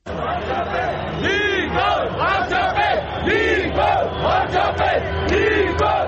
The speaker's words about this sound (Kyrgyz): Никол Пашинян миңдеген демонстранттарды баштап кайрадан көчөдө үн күчөткүчү да колунда.